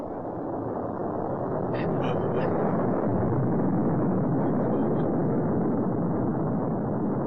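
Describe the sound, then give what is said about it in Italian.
A huge Tolmekian airship from Nausicaä comes in for an emergency landing, producing a loud, dense, steady roaring rumble that holds throughout with a few brief, faint higher tones over the top. “Lord Yupa, arriva una nave. Una nave qui? Guardate! Ma è immensa!”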